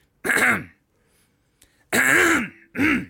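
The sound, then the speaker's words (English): A man clears his throat at a presentation: three separate voiced, rasping bursts, the first and second longer and the last short, with quiet gaps between and no speech. “clears his throat”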